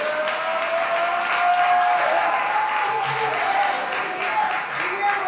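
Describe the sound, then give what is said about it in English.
Crowd applause for the Chattanooga chapter at a Saturday action rally: sustained, even clapping with a voice speaking over it. “Got up early in the morning to be part of the Saturday Action Rally. Give them a hand.”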